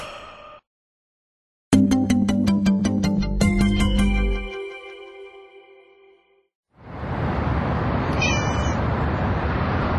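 A cat meows a few times in close succession, with loud, drawn-out, tonal cries that trail off. No voices are heard.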